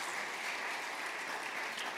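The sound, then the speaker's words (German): Warm, welcoming applause greets a guest pastor coming on stage at a church event. The clapping is even and steady from start to finish, a dense wash of many hands with no voices over it. “Und wir wollen ihn mit einem ganz herzlichen und warmen Hobapplaus bei uns auf der Bühne willkommen heißen.”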